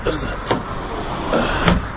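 Car doors thud as people get into a car, with two dull impacts standing out over a steady low rumble.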